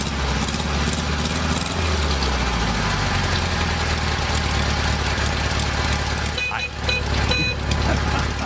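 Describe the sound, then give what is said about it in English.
A car engine idles with a low, steady rumble and a regular throb running throughout, while people talk over it. “Now, if it just sits here and idles, I like it when they're shifting gears.”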